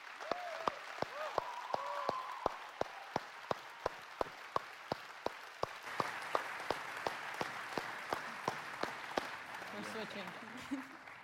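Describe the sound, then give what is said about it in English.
Many evenly spaced claps beat out a steady rhythm as an audience welcomes a speaker to the stage. The clapping is faint, with voices talking over the opening and closing stretches. “I know we all want to say thank you. We already clapped for you to tell you thank you”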